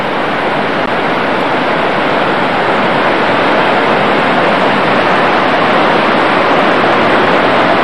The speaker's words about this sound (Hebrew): מים שוצפים וקוצפים. מדהים.